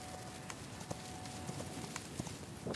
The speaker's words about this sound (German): Heute leben auf 3000 Hektar Grassteppe wieder 300 Przewalski-Pferde in freier Wildbahn.